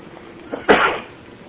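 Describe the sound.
Single sneeze from someone during a religious lecture: one short, sharp, loud burst that trails off quickly against a quiet background.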